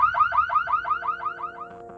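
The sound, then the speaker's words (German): A car immobilizer alarm going off after a failed attempt to start the engine without the code: a loud, rapid run of warbling upward-sweeping electronic chirps, about five per second, repeating steadily and fading slightly. “Er probierte es erneut, vergaß natürlich den Code einzugeben und löste so den ohrenbetäubenden Alarm der Wegfahrsperre aus.”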